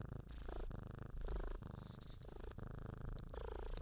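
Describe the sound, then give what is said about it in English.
A cat purrs in a steady, rumbling, rhythmic purr that swells and pauses in many short cycles with each breath. The purr is loud and continuous, with no talking. “Hopefully you can hear him purring.”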